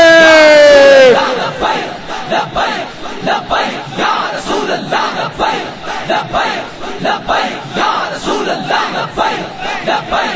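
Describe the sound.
A large crowd chants the religious slogan 'Labbaik Ya Rasool Allah' at a rally. One raised voice opens, then many voices shout together in loud, repeated rhythmic bursts that continue steadily to the end.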